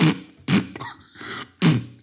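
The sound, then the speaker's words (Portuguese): A voice imitates harsh throat clearing from allergies and a dry morning throat: three loud, raspy bursts, with quieter rough hacking between them. “como as alergias lhe fazem tão mal, ela fica com a garganta tipo meio seca então, a primeira merda que ela faz de manhã, nestes dias de alergias, é isto.”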